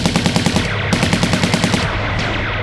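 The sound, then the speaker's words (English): Rapid automatic weapon fire aimed at alien aggressors: loud, evenly spaced shots in quick bursts with a brief break before the shots thin out. “Whatever you are, stop or I fire.”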